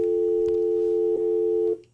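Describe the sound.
A telephone line signal as a caller hangs up: a steady, loud, mid-pitched electronic tone holds evenly, then cuts off shortly before the end, leaving near silence.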